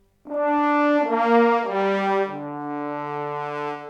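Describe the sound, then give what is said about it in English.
Sampled French horn brass ensemble playing sustained, rich chords that swell in after a brief silence and shift through a few changes, the lowest voice stepping downward, held at a full, even level to the end. “I'm going to be using both the Century Brass Ensemble French horn, which sounds like this”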